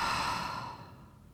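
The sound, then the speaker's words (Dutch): A slow, soft exhale through the mouth after a deep breath during a guided breathing exercise, a quiet breathy hiss that gradually fades away with no speech. “Opnieuw, via de neus in, diep. Hou vast. Adem via de mond uit.”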